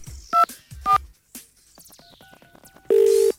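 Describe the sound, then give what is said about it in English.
A telephone number is dialed as a rapid run of short keypad tones. Two brief, louder beeps come before it, and a loud steady tone follows, with no talk. “Okay, let's just dial this.”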